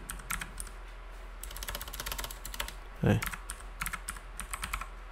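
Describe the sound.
Keystrokes on a computer keyboard as an FTP password is typed in. Quick bursts of tapping are broken by short pauses, fairly faint over a low steady hum.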